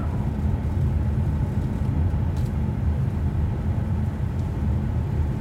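Car driving along a road, heard as a steady, dense low rumble of road and engine noise that stays constant throughout with no talk.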